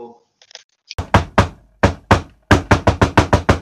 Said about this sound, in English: Hold it. Somebody's at the door.